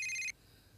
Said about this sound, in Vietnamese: Ai mà gọi điện giữa đêm thế này?